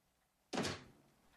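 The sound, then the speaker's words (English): A door closes behind a man in a wheelchair as he goes back into his room. It lands as one short, dull thud, followed by a brief fading rustle, with no voices. “He wheels himself back into his room and closes the door behind him.”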